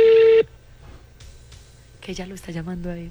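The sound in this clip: A brief steady telephone tone sounds as a call is placed. It is loud and even and cuts off after under half a second. A quiet pause follows, and then a voice talks.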